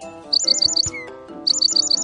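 A parrot chirps in two bursts of rapid, high, bright chirps with a short pause between them, set over a low, steady tonal background.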